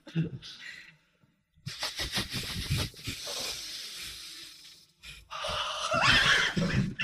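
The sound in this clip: Several people in a group breathing exercise force air out with the belly pulled in, producing a few long, loud bursts of breathy rushing hiss separated by short pauses.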